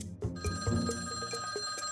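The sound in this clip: A telephone rings with a rapid, steady trill of bright metallic bell strikes that continues throughout, clear and alone without any talk.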